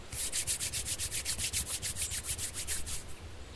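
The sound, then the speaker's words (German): Palms of the hands rub briskly together in many rapid, even back-and-forth strokes, each a bright, soft swishing friction, keeping a steady rhythm before easing off at the end. “Schließen Sie nun Ihre Augen. Reiben Sie Ihre Handflächen aneinander”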